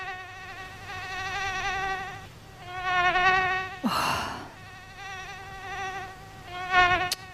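High, thin whining buzz of a mosquito, a steady harmonic drone that swells and dips in loudness, broken by a brief breathy whoosh midway and a short rise near the end.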